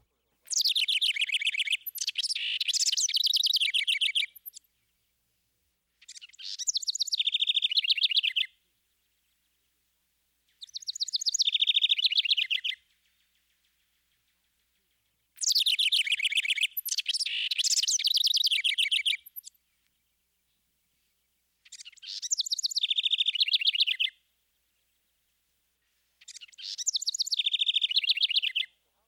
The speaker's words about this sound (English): Another bird with a complex vocalization is the house wren. His song is given in loud, impulsive bursts and is noteworthy for its bubbly exuberance.